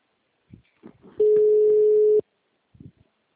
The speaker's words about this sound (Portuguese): Tô ligando pra ele agora.